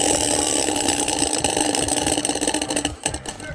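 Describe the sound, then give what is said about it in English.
A prize wheel spins in a fast, dense ratcheting clatter. Toward the end the clicks grow more separate as the wheel slows. “Here on the Wheel of Strofe, away we spin. Wheel of Strofe!”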